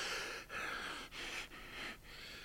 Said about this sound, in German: Er keucht, als er wieder aufrecht steht. Seitenstiche.